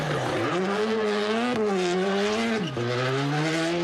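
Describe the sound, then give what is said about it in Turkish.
Rally car engines at the Turkish Rally Championship in Cappadocia, Nevşehir, roar as a loud, buzzing whine that climbs through the revs and drops sharply at each gear change, with a hint of tire squeal. “Pazar günü Nevşehir'de Türkiye Ralli Şampiyonası vardı. Kapadokya'nın eşsiz manzarasında yapılan rallide pilotlar birinci olabilmek için direksiyona geçti.”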